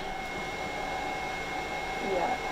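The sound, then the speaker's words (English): Steady mechanical hum of a machine in a small office baking the moisture out of plant samples, a continuous drone with faint held tones and no distinct events. “It has two machines that essentially bake out any moisture left in a plant and then spit out a reading of the moisture percentage.”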